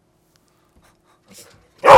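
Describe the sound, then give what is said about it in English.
A dog barking to be let into a studio: near silence, a faint brief scuffle, then one sharp, loud bark at the very end. “You want to come in? We got the guard dog is trying to get in the studio. Come on, Pooch.”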